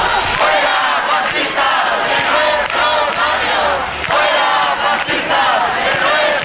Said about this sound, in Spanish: La sentada es pacífica y se sigue escuchando, así suena la sentada en la carrera de San Jerónimo.